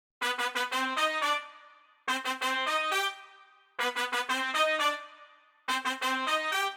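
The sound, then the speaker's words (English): A ska horn section plays four bright brass phrases. Each opens with quick staccato stabs and ends on a held, fading note, with short gaps between phrases. “I'll play you what those horns sound like now.”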